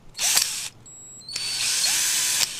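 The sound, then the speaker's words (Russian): Cordless screwdriver whirring in a workshop: a short high-pitched burst, a pause, then a second, longer whir that ends with a click. “Слушай, тут шуруповерты еще лежат.”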